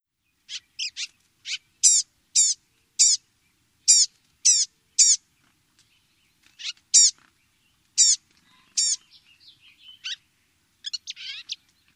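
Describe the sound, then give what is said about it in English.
Blue-gray gnatcatcher calls: many high, thin, nasal and whining notes with a slightly musical quality, each short, given singly or in quick pairs with pauses between, heard alone against silence. “It is pretty distinctive, so let's listen again to the call of the blue-gray gnatcatcher.”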